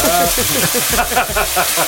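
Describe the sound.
Anchovies sizzling in a hot pan, a loud, continuous crackling fry with rapid spits and pops throughout.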